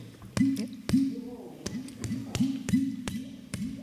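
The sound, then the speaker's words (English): A hand releases quickly from the top of a hollow object, making a series of hollow popping plops, each with a short upward-swooping tone, repeated in a quick, slightly uneven rhythm. “It's also a hollow object, and that sound is being trapped by the hand actually releasing quickly from the top of the hollow object.”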